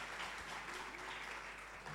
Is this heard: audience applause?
yes